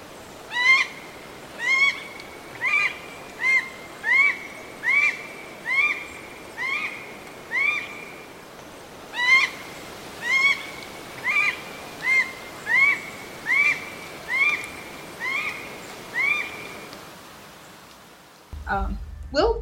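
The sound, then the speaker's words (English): Red goshawk calls: a long series of loud, harsh, repeated cackling notes in a steady rhythm. They come in two runs separated by a short pause. “And now, the sound of the red goshawk.”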